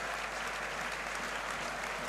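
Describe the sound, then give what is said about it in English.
A standing football crowd applauds a player being substituted off during a Wrexham versus Oldham Athletic match. The clapping is continuous, fairly faint and even, over a low steady hum. “well, the crowd are all standing to acknowledge who's coming off.”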